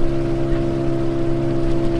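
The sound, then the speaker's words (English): A boat motor drones during a ride into the mangroves of the Casamance River. It makes a loud, steady engine hum with a tonal whine and broad rushing noise, unchanged throughout. “We're getting on a boat now and heading deep into the mangroves with environmentalist Aidar El Ali.”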